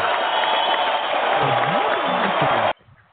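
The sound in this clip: Round of applause, a loud, dense, steady clatter of clapping with voices rising over it, cutting off abruptly just before the end.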